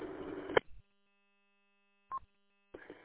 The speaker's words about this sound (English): You can tell I'm local because of the single beep, and you're also on my machine. So if it's got the single beep, it's local.